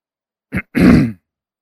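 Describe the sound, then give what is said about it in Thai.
A monk clears his throat: a short, gruff grunt followed by a longer, rasping clearing, loud and alone against silence. “สิ่งที่น่ากลัวที่สุดคือเสียงกระแอมถ้าพระอาจารย์กระแอมเมื่อไหร่”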